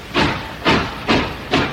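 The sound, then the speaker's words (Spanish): A departing train gives four evenly spaced bursts of loud hiss, like steam chuffs, each rising sharply and then fading, over a soft steady background. “No, ya está aquí, se ha subido al tren. Y ahora, oye, arranca.”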